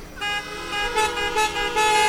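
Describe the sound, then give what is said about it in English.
Many car horns honk together at a drive-in theater as the audience joins in, sustained overlapping tones starting abruptly and holding steady for about two seconds with slight swells. “On the count of three, everybody honk your horns. One, two, three.”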